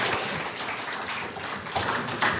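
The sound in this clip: Audience applause for speakers and a leader at a panel meeting, dense steady clapping that swells slightly in a couple of bursts near the end.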